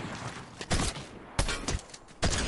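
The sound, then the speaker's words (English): Shotgun blasts from a video game fire in quick succession: a few sharp, loud booms, each with a short decaying tail, and no talk. “And shotgun! And shotgun! And shotgun! Made me waste all my ammo, dude.”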